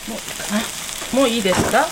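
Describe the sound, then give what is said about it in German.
Wheat-based meat substitute sizzles in a frying pan in a kitchen in Kamakura, a steady crackling hiss with some stirring and scraping over about two seconds. “Mit einem süßlich-salzigen Geruch brutzelt ein Fleischersatz aus Weizen in der Pfanne.”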